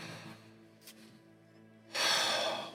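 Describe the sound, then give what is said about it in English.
A kneeling man draws a shuddering breath in a game: a faint low hum, a brief soft catch of air, then a loud, rough, airy rush of breath that holds to the end. “and you can hear a shudder in his breath”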